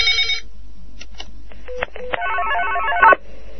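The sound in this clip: A telephone rings for an incoming call. Steady electronic tones come first, then a rapid warbling ring pattern that grows louder near the end and cuts off abruptly.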